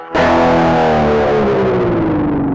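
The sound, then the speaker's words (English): Electric guitar dive bomb, a heavily distorted low note struck once as the tremolo bar drags its pitch steadily downward, sustaining loudly for over two seconds. “The last one I think I hear in this piece is called a dive bomb. The player takes the tremolo or whammy bar, plays a low note, and compresses the bar such that the pitch bends drastically low.”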